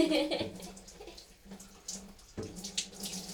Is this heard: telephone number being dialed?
no

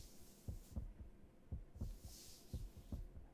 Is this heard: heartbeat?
yes

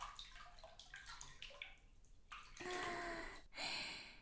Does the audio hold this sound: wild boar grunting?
no

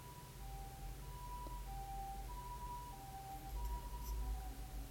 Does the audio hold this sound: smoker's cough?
no

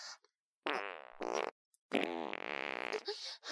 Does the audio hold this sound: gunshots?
no

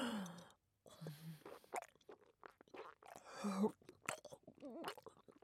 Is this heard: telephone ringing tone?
no

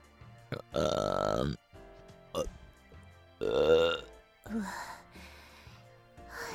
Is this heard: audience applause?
no

